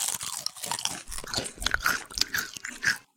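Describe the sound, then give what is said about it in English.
Crunching and chewing on a spicy snack from a packet torn open from the top, with many sharp, crisp bites and grinding chews in an irregular rhythm, fairly loud and without talk. “I really like the flavor that fills your mouth as you crunch down,”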